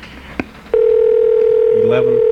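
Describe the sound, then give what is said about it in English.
A telephone dial tone begins right after a couple of soft clicks and holds as a loud, continuous hum, with brief extra tones from the number being dialed sounding over it near the end. “Hope I dialed that right. All right, here we go. We're calling Mount Adams.”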